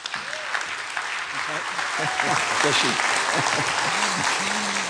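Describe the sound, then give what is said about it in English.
Audience applause welcoming a speaker to a talk in Cupertino: dense, steady clapping that fills the whole stretch, with a voice talking over it. “Give him a hand. Welcome him.”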